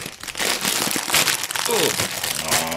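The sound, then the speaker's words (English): A snack bag being ripped open at both ends gives loud plastic crinkling and crackling in many bursts, while people talk over it. “I went a little overboard. That's the bag structure integrity. Rip that bag on both ends.”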